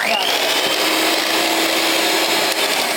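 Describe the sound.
Electric whisk whipping cream until it thickens, a steady, loud, unbroken whirring drone that holds an even pitch throughout.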